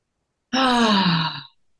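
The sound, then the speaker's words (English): A long voiced exhale, breathing out with sound as in a guided breathing practice, lasting about a second. It is loud and steady, its pitch sliding gently downward before it fades. “she would make us breathe with sound. Like a,”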